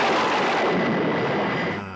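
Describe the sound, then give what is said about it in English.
A gunshot from a film, during a storm scene: one loud, broad blast with a rough, noisy body that fades off over about two seconds. “Yeah, that is Tex Tucker's gun.”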